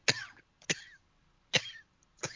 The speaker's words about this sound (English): sorry guys, I'm like, it's all right, coughing up a lung.